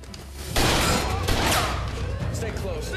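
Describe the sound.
Gunfire erupts in a video game police shootout at an evidence depot, a dense, loud burst of rapid shots that starts abruptly and keeps going.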